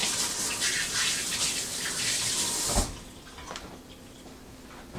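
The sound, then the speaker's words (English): Running tap water pours as hands are washed under it. A bright, steady rushing hiss cuts off abruptly partway through and leaves a much quieter tail. “All right, let me wash my hands.”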